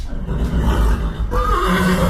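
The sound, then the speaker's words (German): A horse whinnies in a stud farm stable: a long, loud neigh with a wavering, quivering pitch that grows stronger in its second half over a steady low rumble. “beim Ehepaar Catherine und Stéphane Bligny rund 40 Zuchtpferde im Stall”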